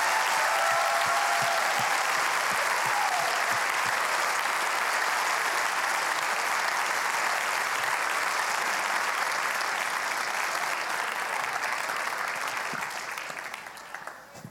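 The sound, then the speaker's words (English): Sustained applause from an audience welcoming a speaker to the stage at a church gathering: a loud, dense, steady clapping from many people that holds for a long stretch and then fades over the final seconds. “All right, everybody, put your hands together and let's welcome my mom up to the stage as she's our speaker today.”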